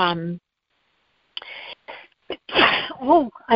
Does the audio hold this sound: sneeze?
yes

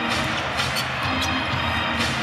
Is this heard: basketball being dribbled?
yes

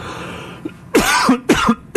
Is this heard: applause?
no

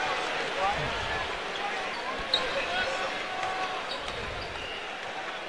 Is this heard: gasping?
no

